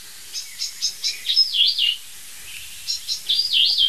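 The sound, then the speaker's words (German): A bird mimics a song thrush alarm call with bright, high chirps: a run of short clipped notes slides into a warbling phrase, then after a pause the same notes and warble return, clear and alone. “Versucht sie dann Singdrossel nachzumachen oder was? Warnruf Singdrossel, würde ich mal sagen. Ja, das ist ein Warnruf”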